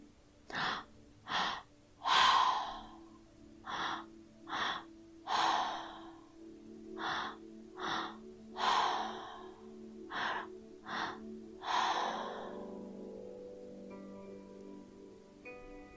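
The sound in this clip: Rhythmic inhaling and exhaling in a breathwork session: many quick, forceful, airy breaths in a steady pattern over a soft, sustained musical drone, with no talking.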